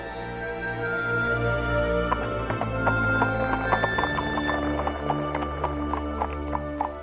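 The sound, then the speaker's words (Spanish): A horse gallops away with rapid hoofbeats that start partway through and continue, clip-clopping over a sustained musical drone. “y así diciendo, partió al galope.”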